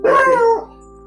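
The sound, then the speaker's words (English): A dog barks once, a single loud, harmonic bark lasting about half a second, heard alone with no talk over it. “Excuse me, that was my dog.”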